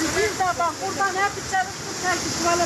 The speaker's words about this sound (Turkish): Sel her tarafı aldı götürdü böyle. Burası da Bolu'nun Gerede ilçesi. Sağnak sonrası Sadur köyünden geçen dere taştı.